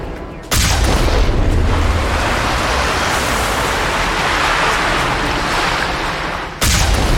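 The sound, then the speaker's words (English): A blast from the Mako vehicle's guns in a science-fiction video game. A sudden loud onset swells into a heavy, continuous roaring rumble that holds for about six seconds, then cuts off abruptly. “Just fire a little blast in there.”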